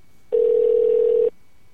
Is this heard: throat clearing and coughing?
no